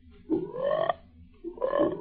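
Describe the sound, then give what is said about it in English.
Frogs croak in two long, loud bursts separated by a short pause, each call a rough, buzzy, resonant croak answering a flute. “What's that? The frogs are convening.”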